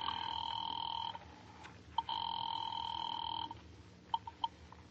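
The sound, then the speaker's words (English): A telephone line rings through to a police department with two long, bright bell-like rings separated by a short pause, followed by a few faint clicks. “Get me the police department, please. Thank you. Ringing the police department.”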